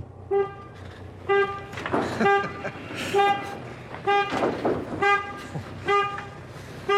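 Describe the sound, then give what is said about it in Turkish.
A 2006 Transit Connect van reversing gives a steady series of sharp, high electronic warning beeps, about one per second, over a low engine rumble. “Bu araç geri gidiyor.”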